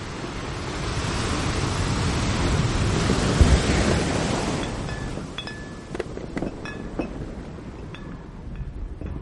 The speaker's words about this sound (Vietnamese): Con tàu du lịch khổng lồ hình như vừa bị một con sóng lớn đánh mạnh vào bên mạn trái, khiến cho nó đổ nghiêng về hướng đối diện.